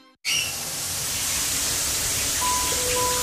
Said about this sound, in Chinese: 洗澡之前我们习惯放掉冷水30秒，一个直径160毫米的花洒